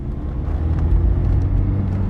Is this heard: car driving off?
yes